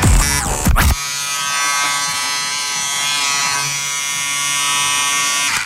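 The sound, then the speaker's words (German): Electric shaver buzzing in a steady, loud electric drone for several seconds, following a brief noisy burst at the very start. “Jetzt wird rasiert.”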